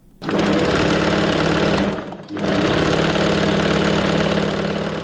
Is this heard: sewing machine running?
yes